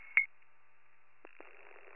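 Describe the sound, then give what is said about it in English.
Faint telephone tones as an emergency dispatcher places a callback: a short beep, a silent gap, then a quieter steady tone ending in a sudden louder burst. “we're attempting callback now.”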